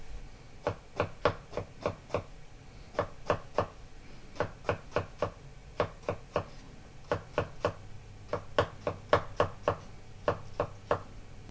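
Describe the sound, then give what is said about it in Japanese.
A knife thinly slices halved mushrooms laid cut side down, making crisp, faint chopping taps. The taps come in many quick, even bursts of several strokes each, with short pauses between the runs. “縦半分に切ったら切り口を下にして薄切りにします。”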